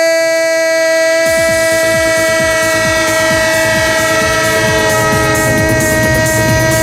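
A loud, sustained multi-tone train horn blares over the rolling train, whose wheels set up a fast, steady clatter of many clicks that starts about a second in and runs to the end.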